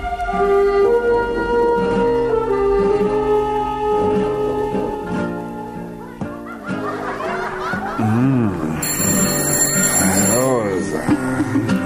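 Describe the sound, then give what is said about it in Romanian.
A telephone rings for an urgent call. The bright, high ringing comes in over music and laughter during the final few seconds. “Nu crezi că trebuie să răspund la acest apel urgent?”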